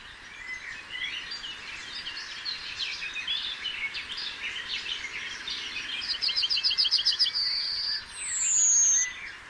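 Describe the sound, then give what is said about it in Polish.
Summer bird song fills an open landscape with many high chirps and trills, then a fast repeated phrase and a downward-sliding whistle near the end, moderately loud over a steady background hiss. “przykład doskonałego dopasowania krajobrazu, pory dnia, roku i atmosfery miejsca do ptasiego głosu, najpiękniejszego głosu wakacji. Posłuchajmy.”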